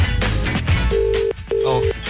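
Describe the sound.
Ringback tone of an outgoing telephone call: two steady, mid-pitched buzzing tones, each about half a second long, separated by a short gap. They follow a brief burst of voice and other sound at the start.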